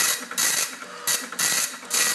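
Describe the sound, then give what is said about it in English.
An old dot matrix printer, connected to an old computer with a floppy drive, runs in short, harsh bursts of buzzing, rasping mechanical noise separated by brief pauses. No one speaks. “It's actually connected to a dot matrix printer. Still works.”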